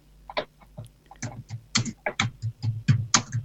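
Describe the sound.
Typing on a computer keyboard, many quick, irregular taps that grow denser and louder toward the end, over a low steady hum.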